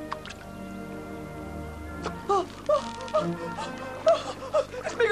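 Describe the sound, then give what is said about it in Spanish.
Light watery plops and drips as a fishing float sinks into calm river water beside a boat, a series of small splashy ticks over a steady tonal background. “Una boya se hunde.”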